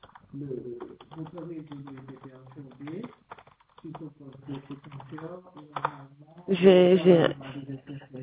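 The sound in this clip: Light typing on a computer keyboard as a complaint is entered, many quick soft key clicks running under people talking.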